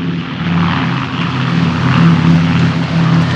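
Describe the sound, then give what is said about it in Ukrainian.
An airplane coming in to land at a small airport gives off a steady, loud droning hum with a low, even tonal whine beneath it that swells slightly midway, and no one speaks. “Бачиш, вон там, вон, здається, іде самоліт на посадку. Бачиш?”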